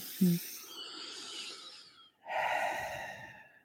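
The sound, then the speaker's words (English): Two long, soft, airy breaths separated by a short pause, taken as a deep breath during a calming mindfulness exercise. No voices are heard. “then take that deep breath.”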